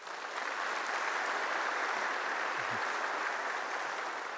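Congregation applause at a church service greeting a man coming up to share his testimony, a soft, even patter of many hands clapping that continues for over four seconds without a break.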